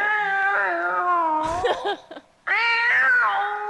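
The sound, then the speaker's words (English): Human voices imitating cats meowing: two long, high, wavering meows, each held and bending in pitch. A short gap of scattered small noises separates them. “I like that it's humans meowing as cats, not cats.”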